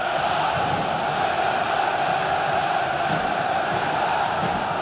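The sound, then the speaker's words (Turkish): Fenerbahçe fans cheer in the stadium at Kadıköy during a match against Beşiktaş, a constant, dense crowd roar that holds at an even level without pauses. “Yoğun tezahürat. Fenerbahçe taraftarının takımına desteği.”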